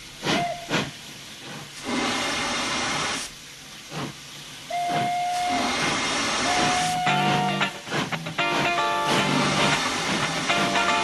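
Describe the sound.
Metro train sounds: repeated bursts of hissing air and rumble with several sustained, whistle-like tones, loud and busy throughout.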